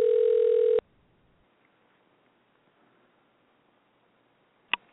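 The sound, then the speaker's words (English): A telephone dial tone while calling a guest sounds steadily for under a second, then cuts off abruptly, leaving near silence broken by a single faint click near the end. “I'm going to try to dial her in here now and get her on the line, so bear with me.”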